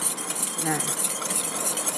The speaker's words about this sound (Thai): จากนั้นก็คน